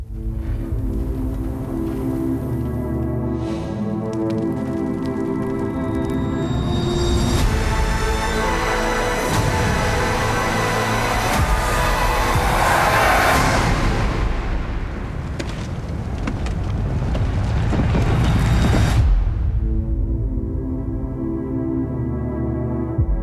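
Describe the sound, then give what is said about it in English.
Dramatic audio from a Game of Thrones season finale trailer plays: loud, sustained orchestral tones swell into dense, booming, explosive hits through the middle. It cuts off abruptly near the end, leaving quieter held tones. “That was a clip from the season finale trailer of Game of Thrones.”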